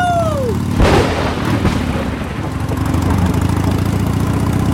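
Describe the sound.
A motorcycle engine carrying four riders drones loudly and steadily throughout with a low, rough rumble, opened by a brief falling whistle and a sharp thump near the start.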